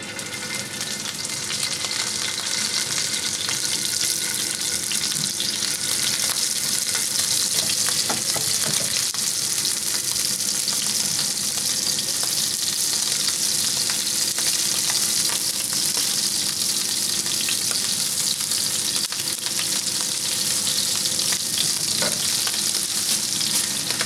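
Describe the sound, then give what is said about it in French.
Food sizzling in a very hot frying pan, a loud, continuous crackling fry that stays steady and dense throughout, with a few brief spits and pops and no voices. “Donc là on a la poêle qui est bien chaude, on va venir stacker.”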